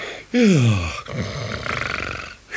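Snoring, beginning with a loud, deep, groaning inhale that falls in pitch, then running on as a rough, steady rasp.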